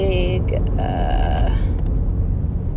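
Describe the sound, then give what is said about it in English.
A car driving home from work gives a steady, low road and engine rumble that runs the whole time, with a voice talking over it. “I'm driving home from work right now, and there's a”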